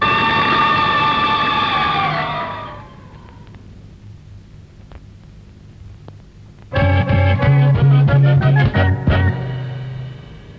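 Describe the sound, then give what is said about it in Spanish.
A fire engine siren wails loudly and slides down in pitch, then after a quieter stretch the truck's bells clang in a rapid, loud burst of metallic strikes. “Conectó la sirena, movió las campanas, arrancó y disparó a toda velocidad hacia el lugar del siniestro.”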